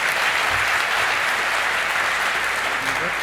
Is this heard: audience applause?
yes